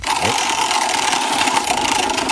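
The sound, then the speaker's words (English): A prize wheel spinning, giving a fast, steady rattle of ticking clicks that runs loud and unbroken throughout. “Spin the wheel, and I'm going to let y'all know what we're talking about.”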